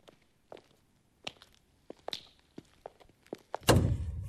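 An old door in a monastery, on the way to the sacristy and church, lands with a heavy, booming thud that rings on, after a series of scattered light taps and clicks.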